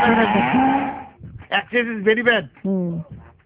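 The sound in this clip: A cow gives one long, low, sustained moo lasting about a second. Several short bursts of voice-like sound follow.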